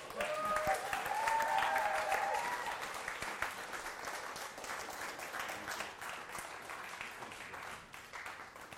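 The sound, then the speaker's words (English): A church audience applauds to welcome new elders, the clapping swelling loudest in the first few seconds, then gradually thinning and fading. “Well, if you would help welcome our new elders.”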